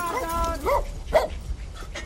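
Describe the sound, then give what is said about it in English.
A dog gives a few short, high-pitched yips and whines. The first call is longer and wavering, and the later ones are brief and sharp over a low background rumble. “This is my daughter's dog. More like a fat sausage.”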